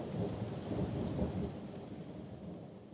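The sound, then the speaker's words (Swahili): Thunder rolls as rain is about to fall, a deep continuous rumble with a broad rushing hiss throughout and no voices. “Naona ni kama mvua inakaribia kunyesha.”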